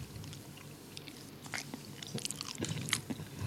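Chicken, rice and broccoli are bitten and chewed, giving faint, crunchy mouth sounds. Many small bites and chews come in an irregular rhythm and grow slightly louder toward the end.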